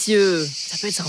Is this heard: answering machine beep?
no